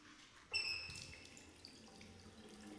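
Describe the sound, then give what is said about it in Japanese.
Water starts running from a tap to wet someone's hair, opening with a brief high squeal and then settling into a faint, steady splashing hiss of flow. “よし、次は髪を濡らすために水を。”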